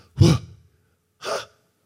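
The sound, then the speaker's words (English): A voice breathes out the divine name YHWH so that it sounds like breathing: two soft, airy exhalations about a second apart. The first is stronger with a slight voiced onset, and the second is shorter and a little fainter. “if you said it as a Hebrew person in those days, it would sound like you're breathing”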